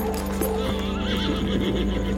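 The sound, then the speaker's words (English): Horse neighs in a high, wavering whinny while its hooves keep up a steady, regular clip-clop beneath it. “John charges out the back door, taking his horse and theater hand Joseph Burroughs”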